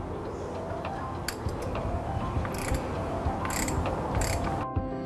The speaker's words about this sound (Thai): ใช้ตัวขันกองน้ำมันเครื่องขันอีกครั้งหนึ่ง